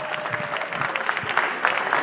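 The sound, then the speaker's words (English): An audience claps for the Duku family, giving a short burst of brisk, overlapping handclaps at a fairly steady moderate level. “Clap your hands for the Duku family. My God, elegance. Clap, clap, clap, clap, clap.”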